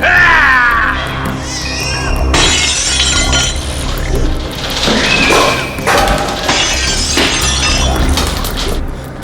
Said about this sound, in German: Die Wand zerbricht!